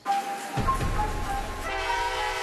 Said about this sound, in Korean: 기차역이 엄청 붐비네.